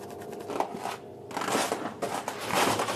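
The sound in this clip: Grinding, scraping cut through an ice core, sawn at exactly one metre in a climate research lab that measures CO2. The noise runs rough and steady, pauses briefly partway, then resumes louder.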